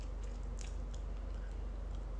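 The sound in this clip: Faint, close chewing of akamoku seaweed during a casual evening of drinking: soft, moist, squishy bites in a steady, repeated rhythm without any talk.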